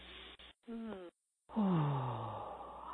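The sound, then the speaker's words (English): A big deep breath taken during a calm guided affirmation exercise, released after short pauses as a long voiced sigh whose pitch slides steadily downward, clear and alone. “Then we always follow with a big, deep breath.”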